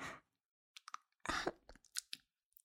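Quiet chewing of something salty and sticky: irregular wet mouth smacks and soft crunches come in several short bursts with gaps of silence between them.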